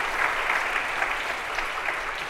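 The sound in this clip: Audience applause welcoming a speaker, a steady, even wash of clapping from many hands that holds at the same level for the whole stretch, with no voices over it.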